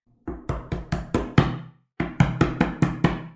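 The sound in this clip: Knocking on a wooden house door in two bursts of six firm, quick raps each, separated by a short pause, loud and dry with no talk.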